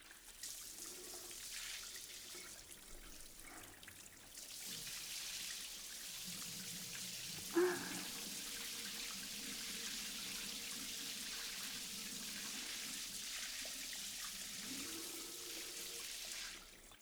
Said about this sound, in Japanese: はい、では流していきます。